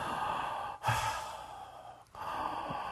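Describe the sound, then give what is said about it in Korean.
A deep breath, a long, steady rush of air lasting about a second that stands out against quieter, faintly breathy background noise, with no talk. “떨리실 땐요, 심호흡을 해보세요.”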